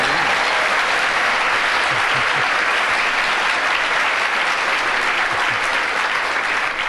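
Loud, dense audience applause during a comedy panel game, with continuous clapping that holds steady from start to finish without a break.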